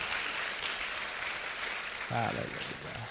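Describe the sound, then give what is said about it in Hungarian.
Congregation applauding in a church: steady, dense clapping sustained throughout, with a voice briefly rising over it near the end. “We'll give the Lord a hand. Úrnak egy nagy tapsot adjunk.”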